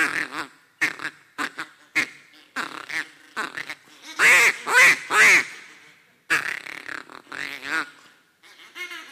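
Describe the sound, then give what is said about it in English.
A person imitates duck calls with the voice, the way hunters in blinds call to ducks, giving a long series of nasal quacks in irregular bursts, with three louder, longer calls in the middle before the quacking resumes. “Okay, that's what ducks sound like. Have you ever heard a duck? I'm not that good, but that's what they sound like, okay?”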